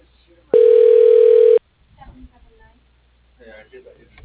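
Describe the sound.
A single steady telephone tone lasting about one second plays while a caller is transferred through a hotel's automated phone line. The tone is loud and clean, and faint murmuring follows it.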